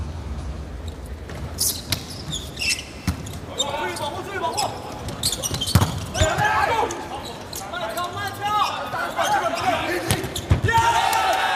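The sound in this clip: Volleyball serve and rally in a Belgium versus China match: several sharp ball-strike thuds spaced irregularly through the exchange, over constant crowd noise and a commentator's voice.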